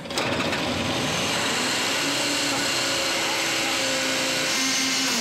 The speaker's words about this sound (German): Das Gekreisch ist nicht normal. Das Problem ist jetzt, das Geräusch kann ja aus der Pumpe oder aus dem Nebenantrieb kommen. Das Lager kann ja auch im Nebenantrieb kaputt sein.